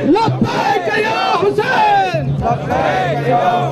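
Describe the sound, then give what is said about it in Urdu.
Protesters chant religious slogans in unison against the government at a Shia rally over killings in Parachinar, Balochistan. Loud, sustained massed voices rise and fall in shouted phrases throughout. “احتجاجی مظاہرین نے احتجاجی نعروں پر مبنی پلے cards, کتبے اور banners اٹھا رکھے تھے اور انہوں نے اس موقع پر لبیک یا حسین کے نعرے لگا کر حکومت کے خلاف اپنا احتجاج ریکارڈ کروایا۔”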